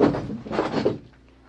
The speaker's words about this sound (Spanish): Hazte a un lado para abrir ese cajón.